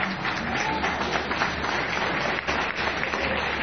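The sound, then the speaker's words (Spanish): Audience applause from the people present at a gathering, a dense, steady wash of clapping that holds at an even level throughout. “Quiero un gran aplauso, por favor, a todos los presentes.”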